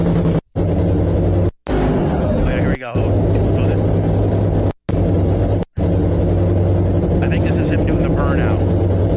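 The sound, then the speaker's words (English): A car engine droning during a pre-burnout to heat the tires, a loud, constant low rumble with strong harmonics, broken by a few abrupt short gaps, with brief voices over it. “Let's say always do the pre-burnout to get the tires hot, of course, right? Yeah. I think this is the pre-burnout. Now that's the burnout right there.”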